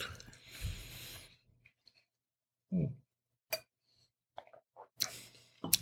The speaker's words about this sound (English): Well, actually, it does go pretty well with this wine. Mm. I don't know if it's just peanut or garlic that does it.